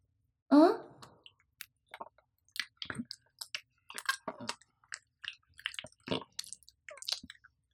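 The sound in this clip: Someone chewing food, with wet, clicky mouth sounds. After a louder voiced sound at the start, many short smacks and soft crunchy bites follow in an irregular rhythm, fairly faint and with no talk.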